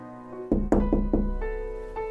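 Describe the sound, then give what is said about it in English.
Knocks on a bedroom door: four firm raps in quick succession, then a pause, over a steady tonal background. “Victoria was sitting on her bed, putting on her white gloves, when Maria knocked at her bedroom door.”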